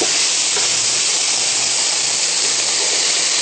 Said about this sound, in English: Now I'm going to add in some zucchini. We've got fresh chopped zucchini.